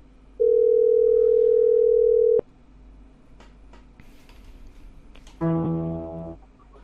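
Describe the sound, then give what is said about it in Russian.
Telephone ringback tone heard while calling a debt collection agency: one steady, even-pitched tone lasting about two seconds over faint line hiss, followed later by a short harmonic burst. “Звоню в Сафт.”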